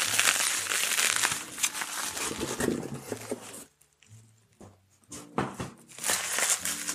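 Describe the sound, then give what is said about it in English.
Bubble wrap being unwrapped gives off dense, loud crinkling and crackling. It falls away to near quiet for about a second and a half, then returns just as busy. “Let's see what we got here. Bubble wrap.”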